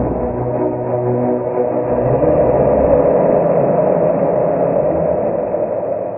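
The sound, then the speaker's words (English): Rocket launch vehicle lifting off: a steady, deep roaring rumble that swells slightly and holds strong throughout, with no voices. “The launch vehicle is ready to launch.”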